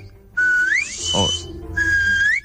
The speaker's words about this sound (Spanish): es un saludo del presidente de la Asociación del Silbo Herreño, que ha dicho: hola, oyentes del Hoy por Hoy